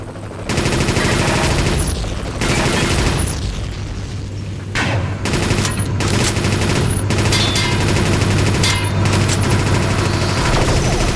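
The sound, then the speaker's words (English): Machine gun fire in a video game, sustained and loud: dense rattling bursts with heavy booming impacts run almost without pause, broken only by a few brief gaps before resuming. “Machine gun, 47.25%.”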